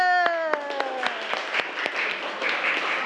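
Applause from a class clapping together, a dense, steady patter of many hands with a few sharper claps standing out, and a held falling tone fading early on.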